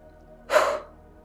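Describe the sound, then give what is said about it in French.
A person takes a deep breath and exhales forcefully in one go. The breathy rush swells quickly and then trails off, alone in near silence. “Maintenant, vous allez prendre trois grandes inspirations et expirer à chaque fois d'un seul coup, comme ceci.”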